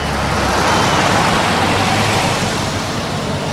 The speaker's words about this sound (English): Soon after, father and son drive home in their Land Rover.